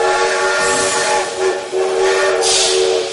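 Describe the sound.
A train at a railway station platform, a loud continuous rumble with a sustained tonal hum running through it and a burst of hissing steam near the end.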